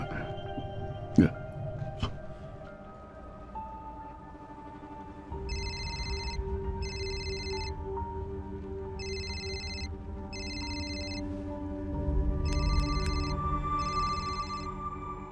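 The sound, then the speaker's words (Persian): A telephone rings in three double bursts of a high electronic trill, each pair a few seconds apart, fairly faint over a low background rumble with no talk. “داره زنگ میزنه. جواب بده”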